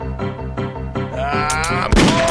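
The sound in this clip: Gunshot during an ambush in a video game, a single sudden low burst near the end, cutting through sustained tonal game sound.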